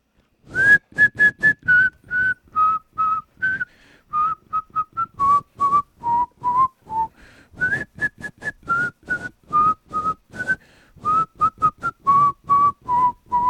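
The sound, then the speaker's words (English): A person whistles a tune alone: many short, clear, fairly high notes in a steady melodic rhythm, gently rising and falling in pitch, with brief pauses between phrases. “I never really got better at whistling as the summer went along.”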